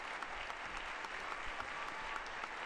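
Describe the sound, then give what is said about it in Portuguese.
Audience applauding the Pope's arrival at UNESCO headquarters in Paris: steady, continuous clapping from many hands, soft and even for the whole stretch. “sendo recebido, Santo Padre, pelo aplauso dos presentes na sede da Unesco em Paris.”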